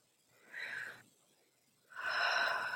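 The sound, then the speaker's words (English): Long, slow, deep breaths, soft airy rushes of breath: a shorter one followed after a pause by a longer, stronger one, faint and with no talk. “It's helpful in the beginning of a body scan to take a few long, slow, deep breaths.”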